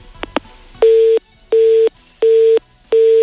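Telephone busy tone after a call is disconnected: four evenly spaced, steady mid-pitched beeps, preceded by a couple of brief sharp clicks.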